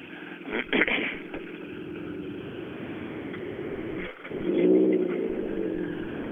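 A Subaru rally car arrives at a rally time control, its engine droning steadily, then surging louder after a brief dip near the end.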